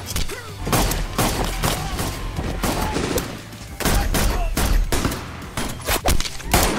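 Gunfire from film headshot scenes: many sharp, loud shots in rapid bursts, some with deep booming thuds and short gaps between volleys.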